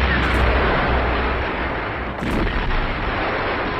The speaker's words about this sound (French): Leningrad est sous le feu des batteries allemandes et subit nuit et jour un intense bombardement.